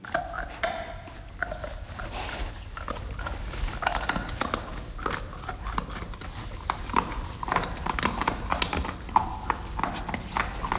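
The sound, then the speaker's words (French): Wild boar eating acorns: continuous crunching and cracking with many sharp snaps and rustles, steady and fairly dense throughout, with no voices. “C'est un sanglier qui mange des glands.”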